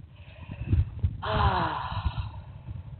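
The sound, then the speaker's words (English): A slow, deep exhale during a guided relaxation exercise: a soft, breathy rush that swells suddenly, then thins and fades gradually over a couple of seconds, with no talking. “Exhale, breath, releasing everything that's chatterful in your head, vibrational in your body, and neurotic in your thoughts, and release it in your breath.”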